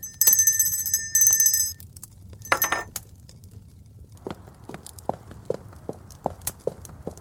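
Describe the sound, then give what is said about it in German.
A small hand bell rung to summon a servant gives a bright, high jingling for under two seconds. A single glassy clink follows, then a run of soft, steady footsteps. “Gräfin haben geläutet?”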